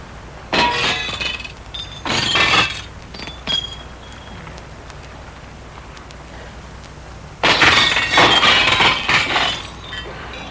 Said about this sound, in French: Il brise la vitre.